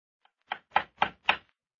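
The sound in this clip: Knocking on a door: four sharp, evenly spaced raps, fairly quiet and crisp, standing alone against silence.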